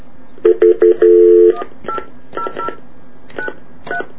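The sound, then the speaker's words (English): Touch-tone telephone dialing of an 800 number: a few short, loud beeps in quick succession, then one longer sustained tone, followed by several fainter, brief tonal blips spaced apart. “I'm calling up their VoiceStream's 800 number”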